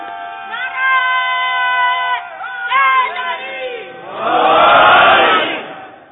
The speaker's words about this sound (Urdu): درود بھی بلند آواز سے بھیجیں، نعرہ حیدری بھی پوری قوت سے رکھیں،